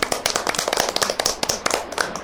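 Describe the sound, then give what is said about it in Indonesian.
Kindergarten children clapping for a classmate, many quick, uneven hand claps overlapping in a lively burst at a moderate level. “Tepuk tangan anak-anak untuk Rian.”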